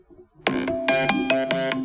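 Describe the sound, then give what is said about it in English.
Apple iPhone ringtone: bright, clean synthesized tones in a quick melodic pattern of several short notes, moderately loud with no talk over it. “That sound is the sound that everyone knows if they have an Apple.”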